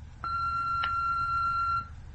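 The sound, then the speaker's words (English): Answering machine beep after the outgoing greeting: one steady, clear, mid-high electronic tone lasting about one and a half seconds, alone over faint low hiss. “I can't come to the phone, but please record a message after the tone.”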